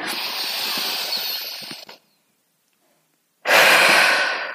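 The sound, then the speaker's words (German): A deep breath is drawn in slowly through the nose, followed by a pause of silence and then a long, steady exhale, both breaths close and clearly audible. “atme einmal ganz tief durch die Nase ein. Und atme ganz tief wieder aus.”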